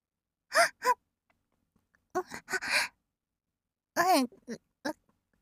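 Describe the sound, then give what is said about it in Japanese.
Soft breaths blown close into the ear come in several short, breathy puffs with pauses of silence between them, some carrying a faint voiced sigh. “耳元で。やめて。息ふうふうしないで。”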